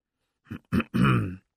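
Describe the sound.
Loud throat clearing comes in three rough, voiced bursts: two short grunts followed by a longer, drawn-out rasp.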